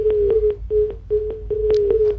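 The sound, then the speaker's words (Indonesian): Telephone line tones as a dropped call is redialed: a steady, low-pitched tone repeats in short segments separated by gaps and clicks, moderately loud and alone. “Baik, terputus. Kita coba hubungi kembali.”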